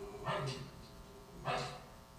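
A dog barking twice, two short, muffled woofs spaced about a second apart over a steady background hum.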